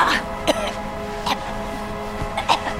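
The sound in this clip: A woman pretends to choke heavily in a performed imitation, making strained voiced gagging and croaking. A few sharp, cough-like catches punctuate the sound, which is loud and steady throughout.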